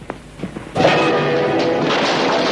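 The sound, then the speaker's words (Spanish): A punch sends a man crashing out through a door in a film pub fight: a few light knocks, then a sudden loud impact that becomes a sustained, heavy clattering crash. “El puñetazo de Sean hace que Will salga a través de la puerta.”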